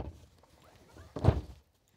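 A folding bed swings open accordion-style and lands with one soft, dull thunk, after a faint stretch of quiet handling noise.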